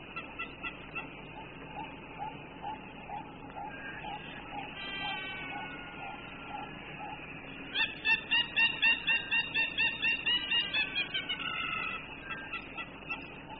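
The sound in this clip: A hammerkop, or hammerhead bird, calls with faint, evenly repeated notes early on, then a louder burst of rapid, nasal, yelping notes in a steady rhythm before they fade.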